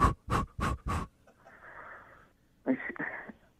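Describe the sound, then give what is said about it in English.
Quick panting breaths from a woman in labour: four short, sharp breaths in a fast even rhythm, followed by a longer, softer airy breath and then one more breath. “now that you're in that position, what I'm going to need you to do is take 5 quick breaths”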